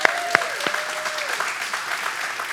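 A church audience applauds a guest invited up on stage, with a couple of sharper claps at the start before the brief clapping settles into a steady patter.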